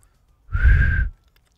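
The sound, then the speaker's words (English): A breathy attempt at whistling: a single steady, airy tone lasting about half a second, buried in heavy rushing breath noise, with no talk around it. “I just tried to whistle and I couldn't.”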